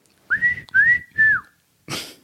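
A person whistles a short stretch of a TV theme song: three clear, sustained melodic phrases in a bright, steady pitch, with brief gaps between them.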